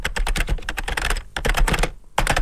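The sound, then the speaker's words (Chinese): Fast typing on a computer keyboard, a dense, fairly loud run of sharp key clicks broken by two brief pauses, with no voices. “芒巴熟练地敲击着电脑键盘”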